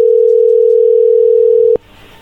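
Telephone line tone while a call is dialled: a loud, steady single-pitch hum sounds alone for under two seconds, then a click cuts it off and leaves only faint hiss.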